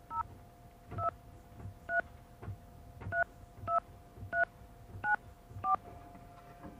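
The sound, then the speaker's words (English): Telephone dialing tones: a series of about nine short, bright two-pitch DTMF beeps at a brisk, slightly uneven rhythm, each clear and distinct, with no talk. “you're going to hear dialing. Please don't be confused.”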